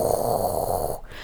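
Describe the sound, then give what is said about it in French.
Breath blown into a jaguar-shaped ceramic wind instrument, amplified into a hoarse, guttural rush of air with a steady low rumble under airy hiss, held evenly and then cut off abruptly just before the end. “c'est un drôle d'objet qui a la forme d'un jaguar, et c'est en céramique aussi. Et quand tu souffles dedans, ça amplifie juste ton souffle, donc ça fait vraiment un...”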